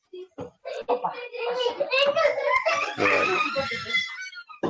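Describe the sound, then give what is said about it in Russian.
Children's voices chatter and shout close by, loud and continuous, with overlapping cries and calls. “Да, дети тут понабежали.”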